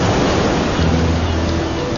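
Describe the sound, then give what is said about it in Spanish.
Sea waves washing onto the shore, a dense, steady rushing hiss of water and surf that stays loud and even throughout, with no voices. “Para verlo, vuelvo a la costa. Nos situamos junto a la orilla del mar.”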